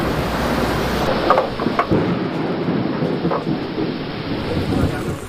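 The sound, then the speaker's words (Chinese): Thunder and heavy rain break over an archaeological excavation site. Dense, steady rain hiss continues throughout, and a few low rumbles and cracks of thunder rise through it. “席子的发掘工作被雷声打断，大雨随之而来。”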